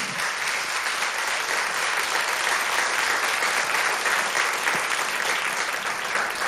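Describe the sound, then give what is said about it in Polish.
Sustained applause from an audience at a live event, a loud, dense and even wash of clapping that holds steady from start to finish with no voices above it. “Należą mi się naprawdę poważne brawa.”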